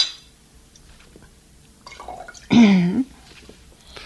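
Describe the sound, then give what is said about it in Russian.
Cognac is poured into a glass in a short, loud liquid splash of about half a second, after near quiet with faint small sounds. “Ну-ка, налей мне еще коньячку.”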